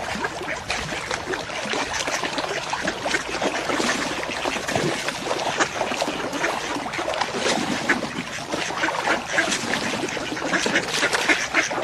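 Ducks quacking in a dense, overlapping chorus of nasal calls that carries on without pause, over a steady windy hiss.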